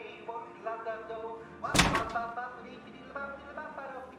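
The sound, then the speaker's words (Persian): A door is shut with a single hard slam, one sharp thud that cuts briefly through ongoing voices. “در رو ببند.”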